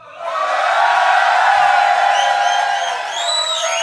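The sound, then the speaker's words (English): A live audience at the Sylvan Arms in Forest Hill bursts into loud, sustained cheering and whooping. The roar swells quickly and holds, with high whoops rising near the end. “Now, we've got a few people tuning in live from around the world. So, would you like to make some noise for them as well?”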